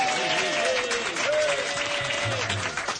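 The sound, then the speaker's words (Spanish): Applause from a studio audience: steady, dense clapping that holds at an even level throughout, with people talking over it. “Son grabados los aplausos, ¿a que no?”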